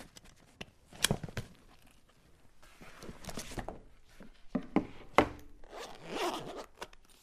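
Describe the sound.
A pencil case is unzipped as pupils unpack school bags in a classroom: faint, rasping zipper pulls in a few uneven bursts with soft rubbing and crinkling between them.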